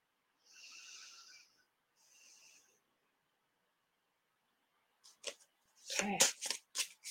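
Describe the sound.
A large deck of oracle cards is shuffled in two crisp, papery riffling bursts, followed after a pause by several sharper, louder rustling bursts.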